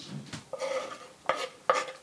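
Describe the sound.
A spoon knocks and scrapes against a simmering cooking pot during stirring, giving a few sharp metallic clinks over a soft, continuous rustling background, with no voices.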